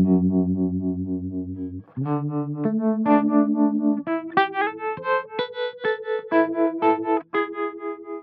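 A mono instrument line runs through a deep harmonic effect, giving sustained, buzzy notes rich in overtones. The notes step upward in pitch, and the later ones come shorter and more pulsing.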